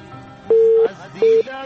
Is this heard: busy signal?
yes